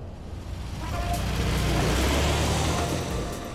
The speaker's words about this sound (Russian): По трассе мчит красная маленькая машина.